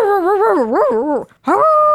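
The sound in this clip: A dog howling, a loud, warbling howl whose pitch wavers up and down, broken by a brief gap before a final sustained note.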